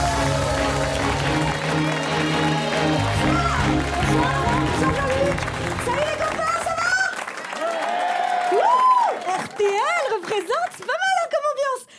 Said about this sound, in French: Ovation à mademoiselle Nadia Rose.